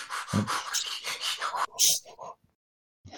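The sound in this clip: Several people imitate Lamaze breathing together in a rapid run of short, breathy puffs and pants. The run stops in silence, then one more faint puff follows at the end.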